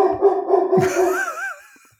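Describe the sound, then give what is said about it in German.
A female dog gives a drawn-out, wavering, whine-like howl with a short yelp partway through, loud at first and then tapering off into silence. “Darf ich vorstellen, meine Damen und Herren, das ist der Hund von Dirk, Anouk.”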